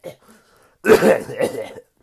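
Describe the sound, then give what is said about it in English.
A voice imitates a cough while the speaker is unwell and recovering from a cough: a short, harsh, throaty burst followed by a longer rasping one, both voiced and fairly loud, with a brief faint sound just before. “as I'm making fun of the cough. I actually do have to cough.”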